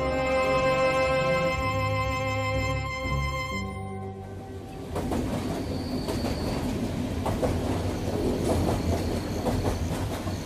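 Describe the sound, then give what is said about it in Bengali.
A slow, swaying train rumbles along the rails with a steady rattling clatter and a brief high wheel squeal. The train sound takes over as a sustained tonal drone fades out. “গরুর গাড়ির মতন দুলকি চালে চলতে চলতে ট্রেনটা এবার দাঁড়িয়ে পড়ল একেবারে।”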